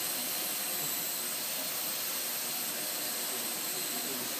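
Electric motors of a remote-controlled device whir steadily as a control program varies individual motors and their combinations to produce turning. The faint, even hum with a thin high whine holds unchanged throughout, without talk.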